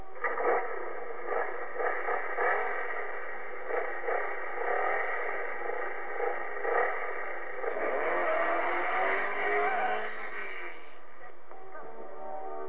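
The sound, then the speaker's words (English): A pea-green Honda drives away with a steady, muffled engine drone that grows louder around the middle before easing back. No voices are heard. “John, calm and collected, quietly drives away.”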